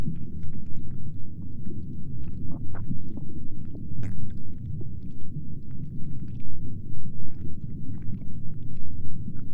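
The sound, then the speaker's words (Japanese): Stomach gurgling as food digests, heard with an ear pressed against a belly: continuous low rumbling with scattered squishy, wet clicks and pops throughout. “クチュクチュって音がする？ きっとさっき食べたもの、胃が一生懸命消化してるんだと思う。”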